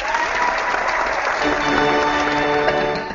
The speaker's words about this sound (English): We have sound effects. We have a live studio audience. That's what it is. That's for real.